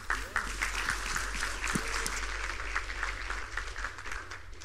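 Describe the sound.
An audience applauds to welcome a speaker, a continuous, even wash of clapping that carries on for about five seconds without a break.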